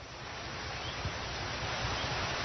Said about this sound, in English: in Talisman, Mexico, where it's absolutely pouring rain, a torrential storm right now